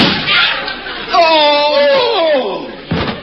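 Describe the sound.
Two people fainting and collapsing after a mock duel: long groaning moans that slide down in pitch, followed by a short thud near the end.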